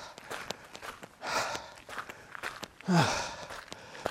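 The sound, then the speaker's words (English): Footsteps of a person running outdoors on muddy terrain, many quick rhythmic steps mixed with a few heavy breaths, fairly clear with no talking. “So, am I running or walking? Running.”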